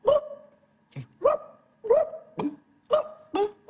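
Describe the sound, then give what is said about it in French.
A hungry, thirsty Kabyle dog barks in a sound effect, letting out a steady string of short, sharp, mid-pitched barks with brief gaps between them, each clear and loud against a quiet background. “Faudrait un son de chien kabyle, tu vois, un chien qui a pas mangé depuis longtemps, un chien qui a soif.”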